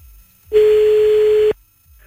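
A single steady, mid-pitched telephone tone on an outgoing call holds for about one second and then stops, heard clearly on its own with no voices.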